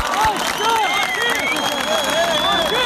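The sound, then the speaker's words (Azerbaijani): Supporters clapping outside a courthouse to back defendants on trial, a continuous crowd applause with raised voices and calls rising and falling over the clapping. “Məhkəmə önünə toplaşanlar əl çalmaqla mühakimə olunanlara dəstəklərini ifadə ediblər.”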